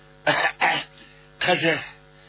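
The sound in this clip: A man's voice imitates coughing: two quick, sharp coughs in close succession, then a longer voiced throat-clearing sound after a short pause.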